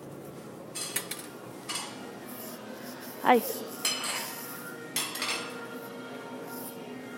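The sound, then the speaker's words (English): Cafe sounds while ordering food: soft clinks of dishes and cutlery with a few brief clatters over a steady low murmur, and a person gives a short greeting. “a cafe that I could just sit in, please. Oh, please. Hold on. Now you're gonna hear me order food. This is what it sounds like.”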